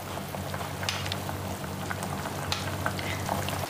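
Tomato shakshuka simmers in a pan with a steady sizzle and bubbling, scattered with small pops and crackles over a constant low hum. No one speaks.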